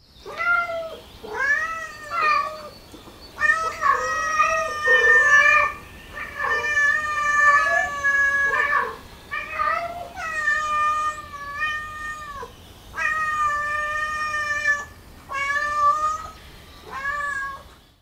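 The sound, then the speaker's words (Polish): A cat meowing again and again for about eighteen seconds. The many clear, fairly loud meows vary from short chirps to long, wavering cries, with brief pauses between them. “Kot.”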